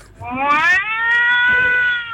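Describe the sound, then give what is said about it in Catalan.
A human voice imitates an angry cat with one long, tonal, meow-like yowl that rises slightly in pitch and then holds steady, loud and alone. “Jo vaig a imitar a un gat. Un gat. Vale? A un gat enfadat.”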